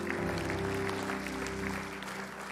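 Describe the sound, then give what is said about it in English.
A church audience claps together in a short, even round of applause over sustained musical tones, holding steady before easing slightly toward the end. “We can clap for that.”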